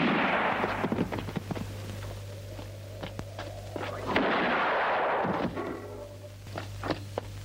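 Revolver gunshots from western film music: several sharp cracks and thuds with brief noisy bursts, heard over a steady low hum.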